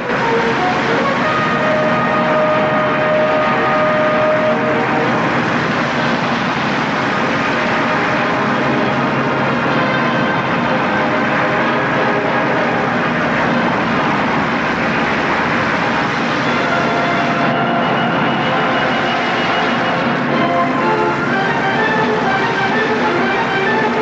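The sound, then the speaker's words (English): Airplanes inch forward toward the runway with a steady, loud engine drone, a dense continuous roar that never breaks or changes much in level. “The other planes inch forward towards the runway.”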